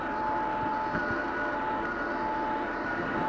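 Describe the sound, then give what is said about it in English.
A helicopter's auxiliary power unit runs up about 100 feet away on the flight line, building hydraulic pressure before engine start: a steady, loud roar carrying a constant high whine, with no breaks. “This noise you hear in the background is a helicopter about 100 feet outside my door. Just down on the line. They're running up the APU.”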